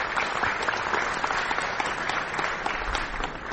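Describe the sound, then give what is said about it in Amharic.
Hall audience applause as a married pair of physicians is introduced: dense, steady clapping from many hands, sustained evenly for the whole stretch with no voices on top. “መግቢያው ላይ እነን የሰማኑ ጭብጨባ በዛ በእለቱ በአዳራሹ የነበሩት የፕሮግራም መሪ ሁለቱን ሙያተኞች ባልና ሚስት ሲያስተዋውቁ ነው።”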